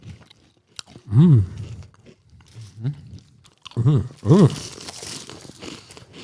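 Crunchy chewing of a sweet-and-salty wafer snack wrapped in parchment paper, a few loud crisp bites and crackles with murmured voiced sounds rising over them.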